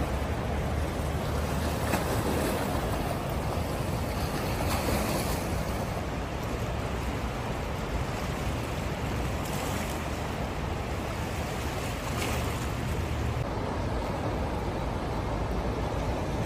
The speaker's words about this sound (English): The falls were really raging. the waves were really rocking in that river.